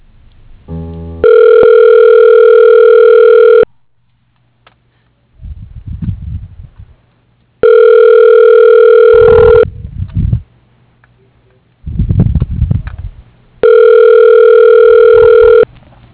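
Ringback tone on a telephone line as a call is transferred to voicemail: three long, steady buzzing rings, each about two seconds, separated by quiet gaps with short bursts of rough line noise.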